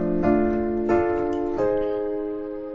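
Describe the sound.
Piano sounding an inverted A-flat major chord voiced E-flat, A-flat, C, with three struck chords in turn, each ringing on and slowly fading, alone with no talk.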